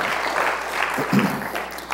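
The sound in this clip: Audience applause welcoming a speaker, a dense, steady wash of clapping from many hands that holds at an even loudness throughout.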